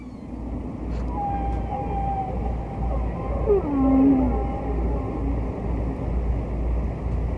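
Whale song played from a vinyl record, a recording of a distant whale: a few faint, drawn-out tonal moans and gliding calls, one sweeping downward, over a steady low rumbling hiss.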